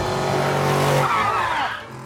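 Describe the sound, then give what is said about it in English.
Car tires skid and squeal as a car turns sharply to swerve out of a truck's path. The high squeal slides downward in pitch over a steady engine drone, then fades quickly at the end. “The mom turns round and skids out of the path of the truck.”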